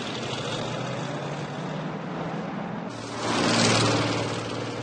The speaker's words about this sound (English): They drive off.